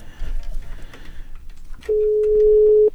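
Long steady ringback tone of a redialed telephone call, one sustained electronic tone following a stretch of low background noise.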